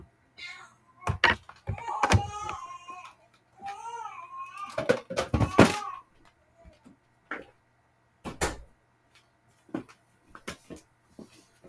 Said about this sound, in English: I don't know why she didn't shut the door. Anyway, just give me 1 second. I'll go close that door.